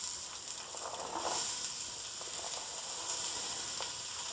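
Onions sizzle in hot olive oil close to its smoke point, a steady, bright frying hiss that holds at an even level throughout, with faint crackles rising now and then above it.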